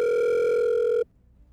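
A telephone ringback tone on an outgoing call waiting to be answered: one steady, loud, even electronic tone that holds for about a second and then cuts off abruptly into near silence.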